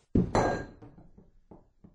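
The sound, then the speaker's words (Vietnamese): A broken porcelain shard falls from a hand and strikes a hard surface with two loud clattering hits, then several fainter bouncing clinks that die away. “Mảnh sứ vỡ trong tay rơi xuống”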